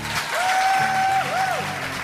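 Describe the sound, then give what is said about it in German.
Audience applause and cheering: dense clapping runs throughout, topped by a sustained high whistle-like tone and then a shorter second one. “Solchen Jubel hast du hoffentlich auch schon erlebt auf der Bühne beim Poetry Slam.”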